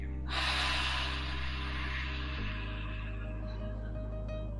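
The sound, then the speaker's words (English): Breathing in and out during a guided breathing exercise: an airy breath that starts abruptly and slowly fades over a sustained low musical drone. “Breathe in red light. And then we open up and exhale.”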